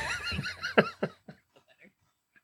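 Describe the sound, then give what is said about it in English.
A pony whinnying: a loud, quavering neigh that breaks into a series of shaking pulses, fading quickly and trailing off into faint snorts. “Oh, what a good pony.”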